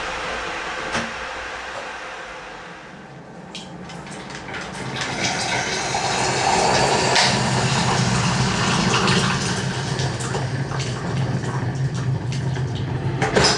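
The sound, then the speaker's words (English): An electric hot-water kettle, a push-button dispenser that delivers a 250ml cup, comes to the boil. A soft hiss swells into a broad, rushing roar that peaks midway and then holds at a steady, bubbling level. “So in a minute, it'll start to boil. So there it goes, so it's starting to boil now.”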